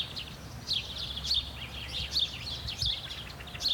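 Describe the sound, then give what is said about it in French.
A fieldfare thrush sings faint, high, thin chirps and squeaky notes in scattered short phrases over a low background rumble. “Ça, c'est le chant de la grive, c'est ça? La grive litorne.”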